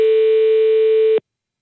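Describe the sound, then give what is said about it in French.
A ringback tone while calling a landline number: a single loud, steady electronic tone lasting just over a second, then cutting off to silence. “Allez, il nous reste quelques minutes, on appelle vite fait cet autre numéro.”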